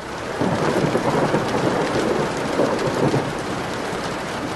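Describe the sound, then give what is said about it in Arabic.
Thunderstorm with heavy rain: a dense, constant hiss of downpour beneath low rolling thunder that swells and fades, with no voices. “دني برا برد وعواصف وزمهرير، مساحات السيارة فايتين ببعض من الشتي الكتير”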